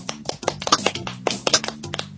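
Weak audience clapping: a handful of light, irregular hand claps, fairly quiet and sparse, scattered over a couple of seconds without talk.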